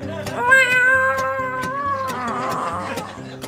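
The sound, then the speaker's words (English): A choir of cats meowing together in drawn-out, wavering sung tones over a steady rhythmic beat. “the clouds are opening up to reveal a cat choir.”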